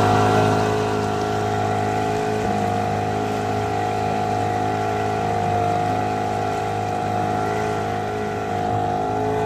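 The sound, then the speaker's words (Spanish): A fishing boat engine drones on Lake Malawi with a steady, unbroken hum and a constant tonal whine throughout. No talk is heard. “Este es el sonido del motor de una barca de pesca en el lago Malawi.”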